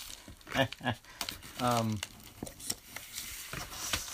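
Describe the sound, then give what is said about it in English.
Crinkling and rustling of a large 18-by-13-inch paper envelope being opened, with a few crackly bursts of paper noise and a person's voice heard partway through. “Let's see what's in the other envelope. This is a really big envelope, I think, for a little book.”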